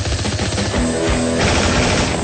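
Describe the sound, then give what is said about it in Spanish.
Gunfire in a radio drama as a man dashes frantically into the street while shooting: a dense, loud rattle of rapid shots that runs without pause through the whole clip. “se lanza hacia la calle en carrera frenética mientras dispara.”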